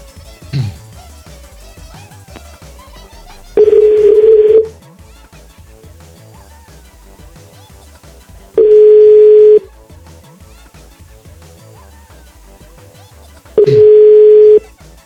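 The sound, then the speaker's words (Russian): Telephone line tones while testing a phone: three steady beeps, each about a second long, spaced roughly five seconds apart, with faint low background sound between them. “Я не дозвонился никому. Я хочу проверить, хотя бы работает телефон.”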